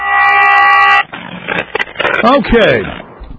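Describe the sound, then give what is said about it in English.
Traffic noise in a parking lot. A sustained car horn blast lasts about a second, then gives way to scraping and clattering vehicle sounds with brief voices mixed in. “They interviewed him in some parking lot, so it was noisy. Traffic in the background.”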